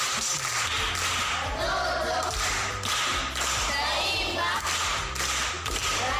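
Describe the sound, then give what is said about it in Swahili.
Clapping from pupils at Miembeni primary school, applauding a class 7 girl after a proverb recitation. The dense, steady patter of many hands carries thumps and taps throughout, with voices faintly mixed in. “Makofi kwa shangazi.”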